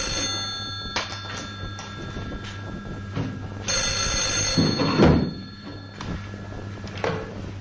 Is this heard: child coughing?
no